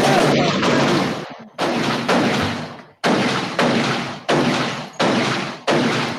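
Gunshot sound effect: many loud, sharp blasts in rapid succession, each hitting hard and decaying briefly before the next, forming a heavy, rhythmic volley of gunfire.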